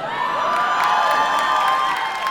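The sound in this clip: Cheering and whooping from an audience: a bright, continuous crowd roar at a steady, fairly loud level for a couple of seconds.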